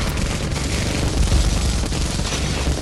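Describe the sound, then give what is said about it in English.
Rapid chain-gun fire from a helicopter in a video game: a dense, loud, unbroken rattling roar that runs through the whole clip and swells slightly with heavier low thuds midway. “But my chain gun is not fooled, as it rips apart flesh and fur.”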